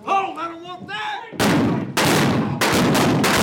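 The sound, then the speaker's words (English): Gunshots in a Wild West gunfight reenactment at the OK Corral: a voice shouts first, then three loud, sharp shots ring out, each followed by a roaring decay. “Are you folks ready for a gunfight?”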